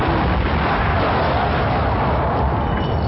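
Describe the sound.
An explosion sound effect delivers a sustained booming roar, dense and rumbling, holding at a steady level for about three seconds with a dull, muffled top end.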